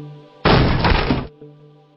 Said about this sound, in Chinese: 一拳砸在旁边的门上，砰的一声，震得屋子里几乎共鸣一样的都在回震